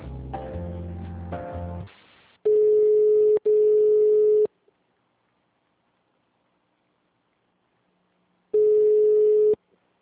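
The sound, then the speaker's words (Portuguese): Telephone tones play while a call is being transferred: after a short burst of sound that fades, two long, steady, mid-pitched beeps follow back to back, then silence, then a third identical beep. “Aguarde um momento que estamos transferindo a sua ligação.”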